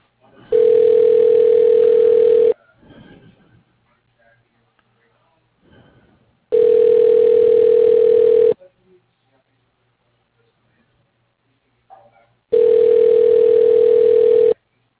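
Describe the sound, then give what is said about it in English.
Telephone ringback during a call transfer: three loud, long buzzing rings of about two seconds each, separated by gaps of near silence. “please hold while your call is being transferred to Joe Fernandez.”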